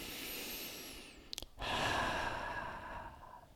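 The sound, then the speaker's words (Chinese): Deep breathing, part of a calming exercise: a soft airy breath, a brief pause, then a longer, fuller breath that swells and slowly eases off. “我们可以借由五到十个深呼吸，”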